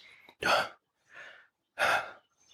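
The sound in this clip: Heavy, gasping breaths from someone winded after climbing many stairs: two loud, sharp gasps with a softer breath between them, and a faint trailing breath at the end.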